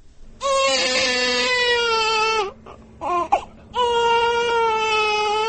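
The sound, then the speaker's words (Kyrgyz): A newborn baby cries in a newly built maternity home in Sai village: two long, loud wailing cries separated by a few short broken sobs, with no talk. “Ушентип Сай айылына курулган жаңы төрөт үйүндөгү алгачкы мыркайдын үнү жаңырып отурат.”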